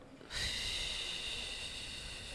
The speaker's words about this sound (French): On va respirer sur quatre temps. 2, 3, 4. Et on va expirer sur 8 temps.